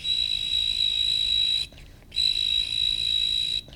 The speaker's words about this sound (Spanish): ¡Un grillito! Oye, ¿qué haces tú aquí? Yo vivo aquí, en esta macetita.